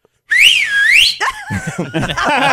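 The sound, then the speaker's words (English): A person whistles in a pharmacy parking lot: one sustained, clear whistle that swoops up and down in pitch for about a second, followed by softer, broken sounds. “I said, who's whistling at me? I said, I didn't assume it was me, but I'm like, who's whistling the CVS parking lot?”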